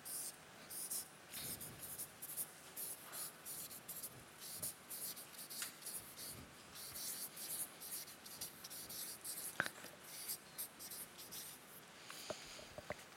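Pen scratching across paper as someone writes by hand, a faint, steady run of many short strokes with brief pauses and a few sharper taps.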